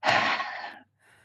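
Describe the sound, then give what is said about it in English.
A long, audible breath out during a guided relaxation breathing exercise: one breathy, airy exhale that fades, followed by a short pause and a faint trailing breath. “Breathe out again, making the sound.”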